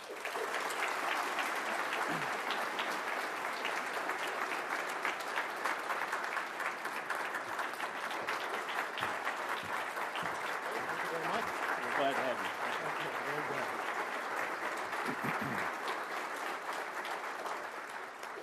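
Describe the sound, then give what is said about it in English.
Applause from a forum audience in Louisville giving a warm welcome to a distinguished guest scientist: sustained, dense clapping at a steady level for the whole stretch, with some voices mixed into the crowd noise. “So with that brief introduction of our distinguished guest, let's give him a Kentucky welcome to Louisville today and to our forum.”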